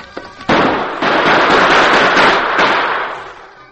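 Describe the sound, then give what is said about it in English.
Gunfire in a western shootout, bullets striking the boulders around a man taking cover as outlaws fire on him. A few loud, sharp bursts trail into sustained crackling noise that slowly fades at the end. “Bullets struck the rocks on all sides of the Lone Ranger”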